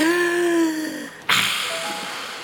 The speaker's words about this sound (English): Just take a deep breath, like this.